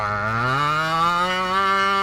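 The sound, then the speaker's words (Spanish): A person imitates a cow's moo with one long, low, throaty call sent as a voice message, lasting about two seconds and rising slightly in pitch partway through. “¡Vaya mugido! Que vamos a tener que abrir un concurso de mugidos, ¿eh?”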